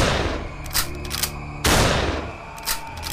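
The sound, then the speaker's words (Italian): A Winchester rifle fires a few sharp cracks, with one much louder blast near the middle that fades out slowly. A low, steady rumble runs underneath. “scarico il Winchester”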